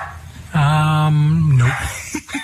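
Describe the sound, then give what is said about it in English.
A dog vocalising loudly: one drawn-out, steady whine-like cry lasting about a second, followed by a couple of short yips. “Is that your dogs?”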